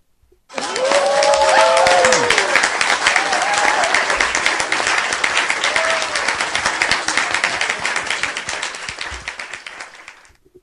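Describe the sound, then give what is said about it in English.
A pleased crowd bursts into loud applause with whistles and cheers. The clapping starts abruptly, stays dense and full for several seconds, then gradually fades before stopping cleanly near the end. “A pleased crowd.”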